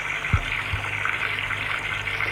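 Water running steadily from a tap into a filling bathtub, an even, continuous rushing hiss with two low knocks near the start.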